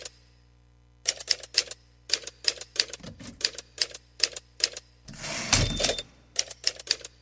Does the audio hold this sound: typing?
yes